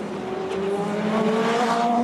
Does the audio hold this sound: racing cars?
yes